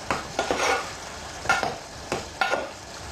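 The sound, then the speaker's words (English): Mushrooms sizzle in a pan with a splash of balsamic vinegar while a utensil stirs them, making several sharp scraping strokes over a steady, soft frying hiss. “Put a little bit of balsamic vinegar into the mushroom. Half a teaspoon for the liquor taste.”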